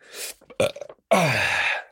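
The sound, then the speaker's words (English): A deliberate, loud belch made on request: a long, rough, low, voiced burp that holds steady for most of a second before trailing off, after a few shorter breathy bursts. “Just expelling gas from both ends. Burp and a fart and off we go.”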